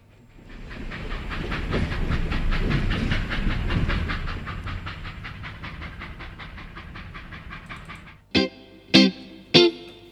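A train running, used as a transition effect: a steady, rhythmic clickety-clack that fades slightly over time, then three sharp, loud tonal bursts at the end, with no voices.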